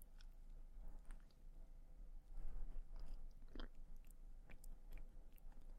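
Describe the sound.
A person chewing food while tasting it, making faint, crunchy bites and steady mouth sounds that repeat many times with no talk.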